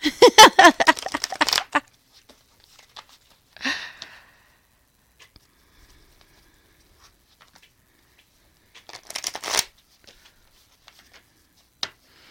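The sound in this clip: Tarot cards are shuffled for a reading: a quick riffling burst of rapid papery ticks opens, then two shorter shuffling bursts follow, separated by quiet gaps with faint scattered taps.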